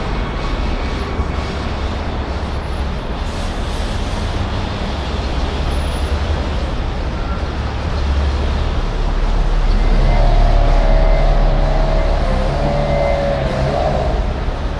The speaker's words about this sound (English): there's garbage trucks and bullshit around me.